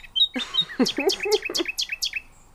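Bird chirping at dawn: a quick run of many high, sharp chirps in a fairly steady rhythm, each note dipping briefly in pitch.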